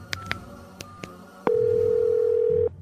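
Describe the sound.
Telephone signal during a call: a few faint clicks, then one loud electronic tone held steady at a single pitch for just over a second, with no voices.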